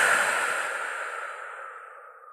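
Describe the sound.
A deep, long exhale during a guided breathing exercise: one breathy hiss that starts fairly strong and slowly fades away, with no speech.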